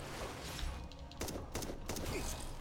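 Video game gunfire is aimed at a boss, coming as a few sharp bursts of shots, faint and separated by short gaps over a steady background hiss.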